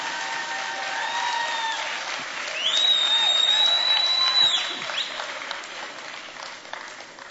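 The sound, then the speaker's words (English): Applause from a church audience welcoming a pastor to the stage to preach, continuous clapping that swells in the middle, with a sustained high tone sounding for a couple of seconds over the crowd noise. “Ladies and gentlemen, let's put our hands together as we welcome Pastor William Kantumoya ministering the word of God today.”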